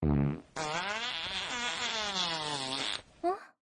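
A long, buzzy fart is let loose as an attack in a fight. The drawn-out rasping tone wavers in pitch for about two and a half seconds, with a short burst before it and a brief blip after.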